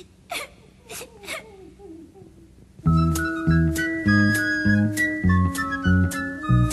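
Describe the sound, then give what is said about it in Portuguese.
A little boy cries as he sits on a stone by the road: a few short, breathy sobs with falling pitch come alone, and then a light, rhythmic musical passage starts. “ele sentou-se quietinho numa pedra do caminho e começou a chorar”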